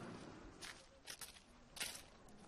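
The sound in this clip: Faint footsteps of someone walking behind another person through a big city, a few soft, irregular steps over a quiet background.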